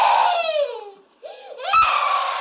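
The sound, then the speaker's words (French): Infant crying at night: a loud, high wailing cry that falls in pitch and fades, then after a brief quiet gap a second wail rises and holds steady until the end. “faut aller voir le bébé, il t'appelle. Oui, oui, il t'appelle”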